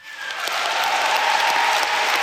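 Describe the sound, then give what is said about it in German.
Applause and cheering from party delegates at a party congress after a unanimous vote: dense, steady clapping that swells within the first half second and then holds loud and even to the end. “Großer Jubel für ein einstimmiges Ergebnis.”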